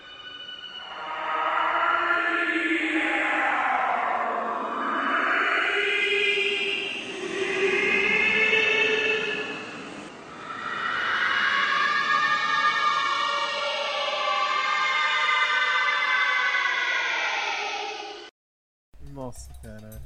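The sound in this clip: A cartoon theme song slowed to 800 times slower, smeared into a continuous droning wash of sustained tones that slowly bend and swell, cut off abruptly near the end before a brief burst of different sound.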